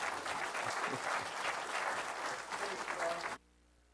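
Sustained applause from a church audience welcoming a visiting guest pastor, dense and steady for about three and a half seconds before stopping abruptly.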